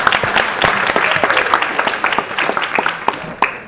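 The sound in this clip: Dense applause from a class audience during a marketing lecture: many hands clapping in a steady, loud, uneven patter for several seconds, with a few faint voices mixed in.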